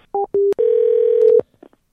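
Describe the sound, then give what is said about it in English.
Telephone hung up and a new call dialed: two short electronic beeps, then a longer steady tone lasting almost a second, followed by a few faint clicks. “All right, just hang up the phone then. Hang it up. Right. Hang it up right now. Hurry up. I got other calls to make.”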